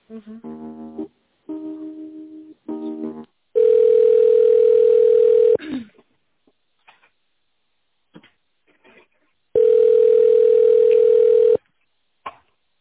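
Telephone line tones while a call is transferred: a few short, pitched beeping tones, then two long, steady, buzzing rings of about two seconds each, separated by a quiet gap with faint clicks.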